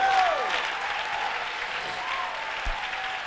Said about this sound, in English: Oh, give the Lord a clap when I'm preaching.